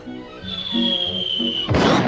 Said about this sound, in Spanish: Dedos de mantequilla. Adiós, adiós. Y la que se cayó es la bruja Hazel.